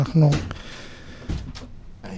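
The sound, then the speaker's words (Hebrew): A door is pushed shut with one solid thump near the start, then a few quieter knocks and rattles while people talk nearby. “שנייה, בואו נסגור רגע את הדלת, כי יש פה מלא רעש שעושים פה מסביב, הכיסא.”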